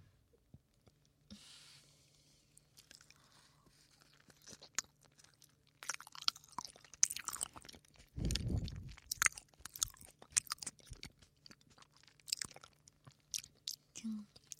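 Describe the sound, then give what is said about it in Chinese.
Durian eaten in close-up, with many quiet, irregular bites, wet smacks and soft crunchy mouth clicks. The chewing grows denser and louder in the second half. “我太喜欢吃榴莲了，绝了。”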